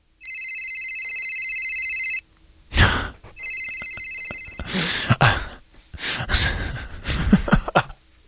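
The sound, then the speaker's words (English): A telephone ringing sound effect: a long, bright trilling ring, then a shorter second ring, followed by several breathy, sighing bursts. “That's a phone ringing, if you didn't already gather.”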